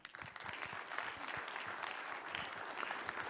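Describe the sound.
A church audience applauds to welcome guest speakers, a steady, even patter of many clapping hands, quite faint, with no voices.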